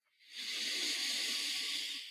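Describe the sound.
A slow, controlled exhale during a breathing exercise: one long, airy hiss that swells quickly, holds steady for nearly two seconds and then tapers away.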